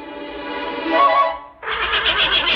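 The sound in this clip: A horse neighs loudly in a voiced whinny, then after a brief dip a second, brighter and shakier burst follows.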